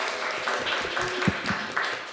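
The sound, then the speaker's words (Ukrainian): Audience applause, a steady rush of clapping hands with a few sharper, louder claps standing out, moderately loud and continuous throughout. “Оплески Антоніні, будь ласка.”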